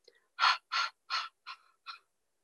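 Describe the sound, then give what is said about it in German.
Five short, staccato panting exhalations, voiced like breathy 'ha' sounds, are done as a breathing exercise with the whole torso moving. They come in a quick, even rhythm, and the last two are softer than the first three. “Ja, bei jedem Ausatmen machst du fünfmal so ein Staccato. Der ganze Torso darf sich dabei bewegen, bei diesem Ausatmen mit diesem Hecheln.”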